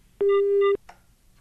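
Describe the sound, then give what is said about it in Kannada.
A telephone busy tone sounds after a call is cut off: a single loud, steady, flat beep lasting about half a second, then near quiet. “ಕರೆ ತುಂಡಾಗಿದೆ.”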